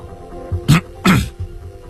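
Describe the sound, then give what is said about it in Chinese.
Throat clearing in two short, harsh, rasping bursts close together, the second slightly longer, loud against near silence with no talk. “萨姆巡官清清喉咙”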